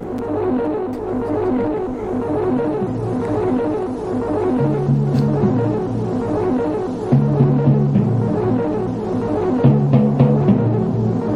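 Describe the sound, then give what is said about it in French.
A small radio set being tuned to find a station gives a throbbing, pulsing hum with a steady rhythmic beat. Low tones step up and down, with brief crackles throughout. “Mais peut-être pouvons-nous essayer de capter quelque chose sur votre petit poste pour démarrer. On peut essayer en effet de capter quelque chose sur mon petit poste”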